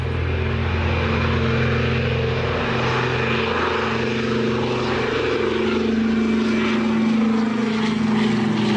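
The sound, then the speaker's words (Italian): Steady drone of a Pan American passenger plane in flight, its propeller engines holding a continuous, even roar with a low hum throughout and no voices. “Max Ernst, André Breton, tutti imbarcati in un volo Pan American per gli Stati Uniti.”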